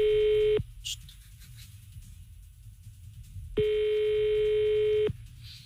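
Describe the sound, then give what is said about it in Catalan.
Ringback tones from an outgoing phone call to a shop in Tarragona: two steady buzzing rings separated by a quiet gap of about three seconds, the first cut short at the start and the second lasting about one and a half seconds. “Tornem a trucar a les coques de Tarragona.”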